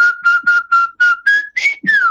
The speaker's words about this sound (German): Aber ich pfeife ihn mal kurz an.